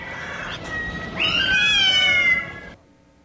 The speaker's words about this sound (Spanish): Gato.